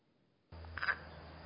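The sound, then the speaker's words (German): A male pond frog's brief croaking call to a female, a faint, short, buzzy burst that starts abruptly and holds steady. “Also das ist der typische Signal eines Deichfroschmannes, der hier also nach seiner Frau ruft.”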